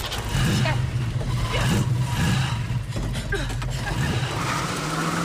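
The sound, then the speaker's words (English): A van drives forward, its engine giving a continuous low, rumbling drone. The motor swells slightly at times and stays fairly quiet and steady throughout. “The van moves forward.”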